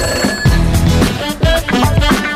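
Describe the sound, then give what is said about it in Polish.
A telephone rings in several loud, repeating bursts of bright tones with short gaps between them, and no voices are heard. “Telefon dzwoni, więc już sprawdzamy, kto po drugiej stronie.”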